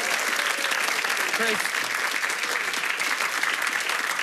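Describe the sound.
An audience applauds as a man is welcomed back to the stage at a live show, producing steady, dense clapping that holds at an even, loud level from start to finish.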